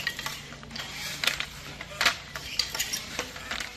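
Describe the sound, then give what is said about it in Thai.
Wooden clacking of a traditional hand-operated beater loom at a community weaving group in Sai Buri, Pattani, Thailand: many light, irregularly spaced knocks and rattles, fairly faint throughout, with no talk. “เสียงกระทบของกี่ทอผ้าดังเป็นจังหวะสะท้อนเรื่องราวของภูมิปัญญาที่สืบทอดจากรุ่นสู่รุ่น”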